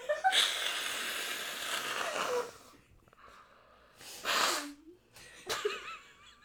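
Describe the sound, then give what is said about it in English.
A person blows their nose: one long, noisy, rushing blow, then after a pause two shorter, sharper blasts of air. “I can't talk over you blowing your nose, because I'm worried they won't hear, so I just gotta wait, and so all I hear right now is you blowing your nose.”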